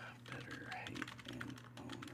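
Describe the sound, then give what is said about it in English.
Typing on a computer keyboard: a faint, rapid run of many light key clicks in an uneven rhythm over a low, steady hum. “Let's type in”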